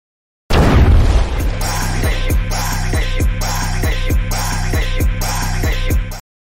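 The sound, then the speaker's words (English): A loud fire sound effect played from a soundboard: a harsh burst opens it, then a looping pattern of booming hits with falling-pitch sweeps repeats at a steady rate until it cuts off abruptly. “It's a fire. Go ahead and play the fire sounder for sure.”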